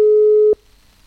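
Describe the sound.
A telephone line tone sounds while a call is connected to a listener in Flores, Manggarai: one steady, loud tone lasting about half a second, then cutting off abruptly into near silence.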